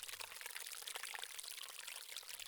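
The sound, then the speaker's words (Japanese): River water flows inside a room as a soft, continuous trickling and pouring hiss. It stays faint and steady throughout, with no voices. “ああ、ここは部屋の中に川が流れているのですよ。”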